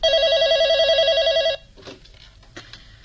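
A telephone rings with a steady, warbling electronic tone for about a second and a half. It then cuts off, leaving only low background noise and a few faint, brief clicks.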